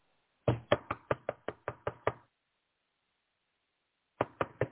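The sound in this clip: Knocking on a door: a quick, even run of sharp raps, a pause, then three more raps in the same rhythm.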